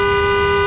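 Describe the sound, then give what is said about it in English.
A car horn heard from a rider's position on a bicycle: one loud, steady, continuous blare lasting under a second, holding a single unbroken tone from start to end. “Now, this is what that same horn sounds like when you're on a bike.”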